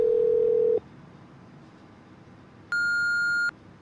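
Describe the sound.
A phone call going unanswered to voicemail: a steady low tone cuts off, a pause follows, then a single higher-pitched electronic beep sounds briefly. No voices.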